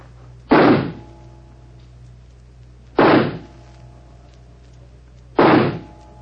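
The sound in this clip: Three pistol shots fired at a target during a shooting match, loud sharp cracks spaced evenly about two and a half seconds apart, each with a short fading tail over a low steady hum.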